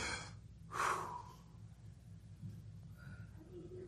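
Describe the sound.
A church audience draws one sharp, collective breath inward at a preacher's request, a brief breathy rush that swells and quickly subsides into near silence.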